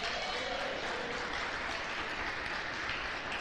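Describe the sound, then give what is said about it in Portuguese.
A church audience applauding Jesus during a sermon, a thick, continuous roar of many hands clapping at a steady loud level throughout. “Se você crê, aplauda Jesus.”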